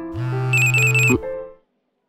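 A phone notification tone for an incoming email: a short, loud electronic tone with a steady low note and brighter high chiming tones layered over its middle, then a quick lower note before it fades out.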